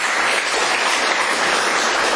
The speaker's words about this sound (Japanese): 拍手いただいております。